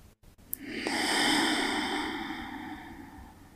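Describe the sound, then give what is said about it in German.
A slow breath out during a guided breathing exercise: a soft, airy rush that swells and then gradually fades over about three seconds, heard alone without talk. “Und dann ausatmen. Lass los. Probier die Atemzüge immer länger und länger werden zu lassen.”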